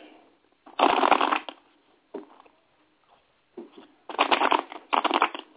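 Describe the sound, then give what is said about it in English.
Tarot cards being shuffled by hand in a few crisp, papery riffling bursts separated by brief pauses, with no talking over them. “One moment while I shuffle.”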